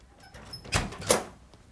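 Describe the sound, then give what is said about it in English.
A door is opened with two quick, faint clicks or knocks, the second following a moment after the first, set against low background hiss. “Open the door!”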